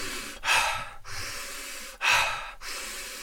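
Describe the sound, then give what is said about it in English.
Forceful, rapid breathing in an energizing charging-breath exercise: two sharp, loud breath bursts about one and a half seconds apart, with steadier airy breath noise running between them. “So then I choose more of a charging breath.”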